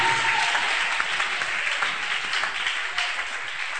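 Congregation clapping as an offering during a worship service: a steady, dense patter of many hands that holds an even loudness throughout, with no speech over it.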